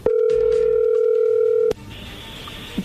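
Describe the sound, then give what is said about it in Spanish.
A telephone line sounds as a call is dialed and connects: a loud, steady, pure tone holds for nearly two seconds and ends with a click. Quieter line hiss follows, with a faint high tone. “ahí se está marcando, ahí entró la llamada.”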